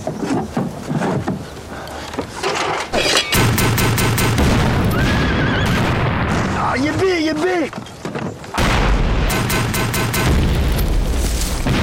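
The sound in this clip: Artillery cannon firing shells in a wartime battle, loud and dense booms and blasts running almost without break, with voices shouting over the barrage.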